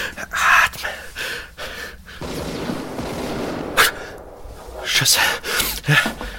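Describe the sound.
A woman gasps for breath in ragged, uneven bursts, several sharp loud inhalations separated by quieter, rasping breathing.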